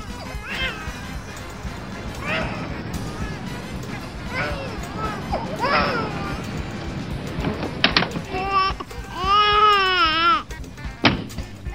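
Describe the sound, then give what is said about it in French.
A baby cries inside a camping-car, with a few short whimpers building into a loud, sustained, wavering wail near the end, amid clattering noises. “Hey monsieur, il y a votre bébé qui pleure là, hein?”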